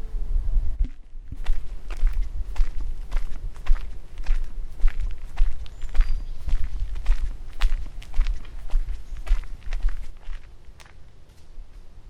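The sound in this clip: Footsteps of someone walking outdoors in a forest, a steady rhythm of many crunching steps on the ground, with no talk.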